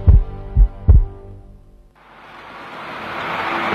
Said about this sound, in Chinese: 听见你的心跳